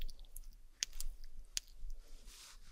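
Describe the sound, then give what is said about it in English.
Slime being squished, giving a few sharp, sticky clicks and pops over a faint background, followed by a soft, wet rustle toward the end. “The best slime ASMR sounds. Organic.”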